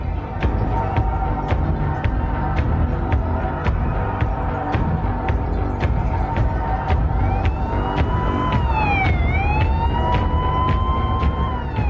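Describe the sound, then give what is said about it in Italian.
Police car sirens sound as cars speed past a movie theater, over a dense, loud rumble of traffic and engine noise. A wavering siren tone stands out most clearly near the end. “Mentre le auto della polizia sfrecciano di fronte al Texas Movie Theater”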